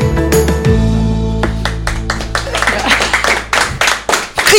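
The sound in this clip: A few people on a radio show give a scattered ovation, separate claps after a voice and laughter at the start, irregular and uneven rather than a full round of applause.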